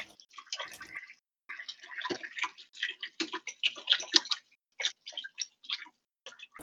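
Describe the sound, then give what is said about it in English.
Hands being washed under running water, heard as irregular splashing and trickling in short bursts separated by brief pauses, with quick dripping, ticking patters in between. “Sorry for the sounds of hand washing in the background.”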